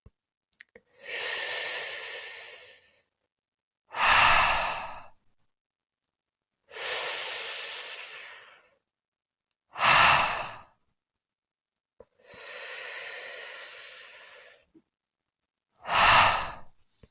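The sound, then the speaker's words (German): Slow, deep breathing with a soft H sound: three long, airy exhales alternate with three shorter, stronger breaths, each separated by silence. “Atme tief ein und atme fast ohne Ton mit dem Laut H aus.”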